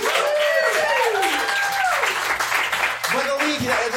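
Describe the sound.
An audience applauds to welcome a speaker at a live event. The clapping is a steady, broad hiss beneath loud talking voices.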